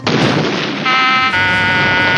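A loud explosion fills the whole clip with a sustained roar of dense noise. Partway through, a ringing tonal layer rises over the roar and persists to the end.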